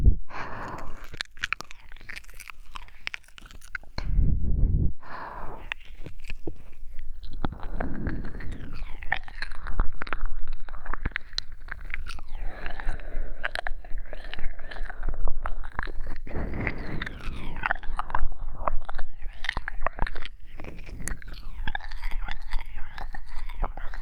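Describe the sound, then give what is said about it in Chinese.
A mother making playful eating and nibbling noises on a baby's ear: soft wet chewing, biting and smacking sounds mixed with breathy whispering, continuing steadily throughout at a moderate level. “宝贝儿子的耳朵真好吃啊，妈妈怎么吃都吃不够呢。”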